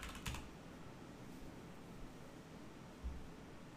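Faint typing on a computer keyboard, a few sparse key clicks separated by quiet gaps over a low background hiss.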